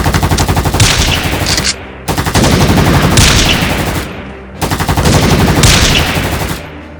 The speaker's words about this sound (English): Seconds later, seemingly without any pretense of coordination, the shots rang out.